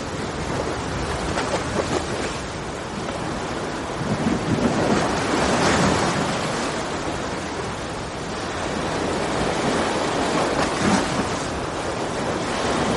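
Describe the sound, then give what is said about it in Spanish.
Sea waves crash against rocks along the shore before daybreak, a loud, steady roar of surf that swells and ebbs throughout, with gusts of wind noise mixed in. “observa el mar chocando contra las rocas”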